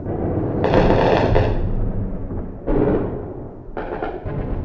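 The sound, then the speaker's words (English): Night bombardment of central Tripoli by cruise missiles: a continuous low, roaring rumble broken by a few heavier booming blasts that burst out loudly and then slowly fade. “This was the sound of central Tripoli in the overnight hours. The U.S. and Britain pounded Libyan military targets with hundreds of cruise missiles.”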